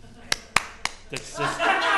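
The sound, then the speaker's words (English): A few scattered hand claps from a small audience at a live talk: three sharp, separate claps, followed by people talking. “Clap right now if you eat your waffles like pizza.”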